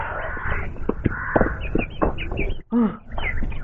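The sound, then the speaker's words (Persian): Harsh, crow-like cawing and squawking from a bird caught in a venomous spider's trap, repeated in many rough cries with a brief break near the end. “یه پرنده توی دام افتاده. تو دام یه عنکبوت زهردار.”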